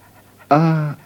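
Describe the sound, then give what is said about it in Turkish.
A dog panting in the street: a single short, voiced breath, loud and alone. “Sanki beni tanıyor bu köpek.”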